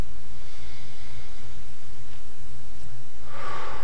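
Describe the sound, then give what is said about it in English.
A deep breath in and out, mostly quiet over a steady low hum, ending in a louder, breathy exhale. “Take a deep breath.”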